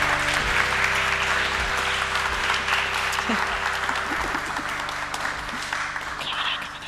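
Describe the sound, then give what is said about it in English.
An audience applauds guests walking onto a stage in a grand building, with steady, sustained clapping over a low, pulsing musical beat. “Welcome, ladies and gentlemen. If you can please put your hands together”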